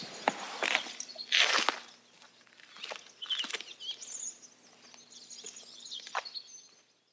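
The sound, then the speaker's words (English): Footsteps crunch softly through New Hampshire snow, walking away from a little red schoolhouse. The steps are faint and irregular, with occasional bird chirps around them. “Sound you heard at the end, by the way, was Milton Friedman walking off through the New Hampshire snow away from a little red schoolhouse.”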